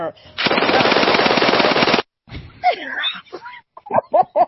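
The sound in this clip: Automatic rifle fire as a sound effect: one loud, sustained rapid-fire burst of about a second and a half, then cut off and followed by a few short voiced sounds.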